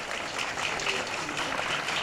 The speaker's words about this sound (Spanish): Un aplauso,